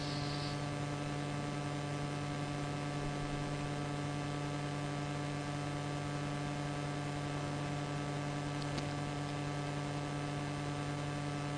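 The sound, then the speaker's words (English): Idle loudspeakers in a room give off a constant low electrical hum, a steady, unchanging drone with faint static hiss and no other sound over about twelve seconds. “Can you hear the sound of the loudspeakers when they are silent?”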